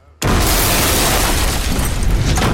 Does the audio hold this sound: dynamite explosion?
yes